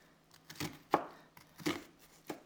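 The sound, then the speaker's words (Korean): Knife strikes on an onion as it is scored horizontally and vertically: a few short, crisp taps and cuts at an uneven pace, fairly faint, with no talk. “가로로 칼집, 세로로 칼집”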